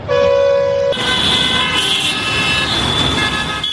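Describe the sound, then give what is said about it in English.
Vehicle horns honk on the streets of Dhaka, Bangladesh: a continuous, loud blare of overlapping horns. One lower tone cuts off about a second in as brighter, higher horns carry on over a rumble of traffic. “That's the sound heard on the streets of Bangladesh's capital, Dhaka, for years. But, says the government, by next year, the sound of vehicle horns or honking will be a distant memory,”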